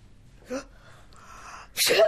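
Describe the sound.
A female colleague's sneeze, one sharp, loud burst near the end that follows a few faint, soft sounds over a quiet background.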